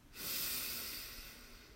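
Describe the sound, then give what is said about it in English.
A deep breath drawn in through the nose during a guided relaxation exercise: one long, steady, airy inhale that starts after a brief pause and holds evenly to the end, with no talk. “One last deep breath in together. Breathe in.”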